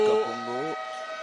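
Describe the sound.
A basketball end-of-period buzzer sounds at a game as a steady, harmonic, horn-like drone lasting about a second. A voice talks over its start.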